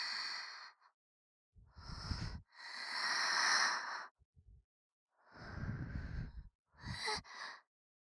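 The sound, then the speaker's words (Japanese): Breath blown close into the listener's ear, several soft, airy exhalations of varying length separated by silences, with no other sound. “耳に息がかかってくすぐったいの？”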